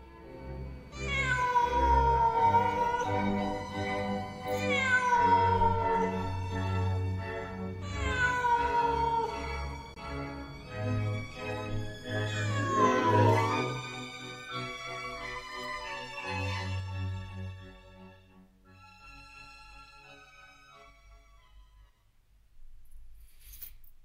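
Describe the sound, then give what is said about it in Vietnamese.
Mournful meows from a black cat standing atop a wall: a string of drawn-out, wailing cries with pitch sliding downward, loud and dense at first, then thinning out and growing fainter toward the end. “nó đứng ở trên bờ tường, nhìn chằm chằm vào trong nhà, kêu lên những tiếng thê thiết. Chỉ là con chó già hôm nay nó lại chẳng ỏ ê gì, mặc kệ con mèo.”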